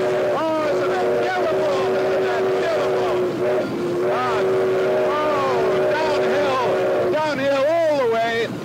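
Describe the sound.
Steam locomotive running, heard from inside the cab while racing down the CP line from Leaside into Union Station beside the Don Valley Parkway: a loud, continuous dense roar with wavering tonal sounds running through it.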